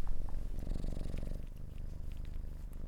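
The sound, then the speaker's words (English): A female cat purring close to the microphone while licking someone's knee: a low, steady, rhythmic rumble of quick pulses, soft and continuous with no talking, ending in a brief click. “Oh, the cat's licking my knee. Oh, that's strange. Oh, lovely. Oh, you can hear her purring. Put her close to the mic.”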